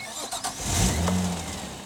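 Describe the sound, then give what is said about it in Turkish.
Turbocharged car engine starting as the turbo draws in air: a few brief cranking knocks, then the engine catches with a swelling roar and settles into a steady, low running hum. “Evet, bu sesi duyuyor musun? Evet. Turbo havayı emiyor, bu çok iyi.”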